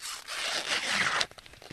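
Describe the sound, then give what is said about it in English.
An ear of corn has its husk peeled back in a cornfield in mid-August: a continuous dry ripping rustle for about a second, then a few faint crackles as it stops. “peels back the husk to see how his corn is looking.”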